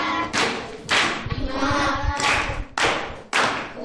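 Group applause congratulating a primary-school pupil who gave a correct quiz answer. The clapping is loud and continuous, with several sharp surges of intensity.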